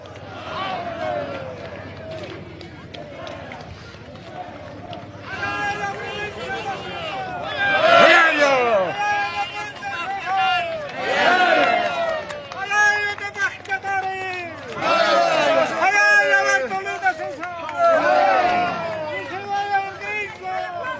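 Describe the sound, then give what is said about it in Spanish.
Protest march crowd arriving in Bolivia's capital: many voices shout and chant in overlapping waves. The sound stays loud and dense throughout, with surges of raised calls. “a ver sobre lo que, cómo empieza esta marcha. Es un arribo que precisamente están llegando ahí a la capital de Bolivia.”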